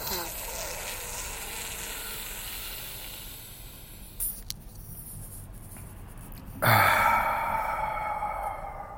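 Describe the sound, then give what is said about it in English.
A congested person takes slow, deep breaths in through the nose and out through the mouth: soft, airy breathing with short gaps, then a louder, breathy rush near the end. “3 deep breaths in through the nose, out through the mouth.”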